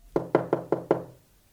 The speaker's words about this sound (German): Also verließ ich Nummer 12 und geisterte den Gang entlang und klopfte an eine Tür.